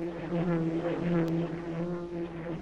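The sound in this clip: A dragonfly's buzzing: a faint, steady, low droning hum with a sustained tonal quality, continuous throughout with no voices.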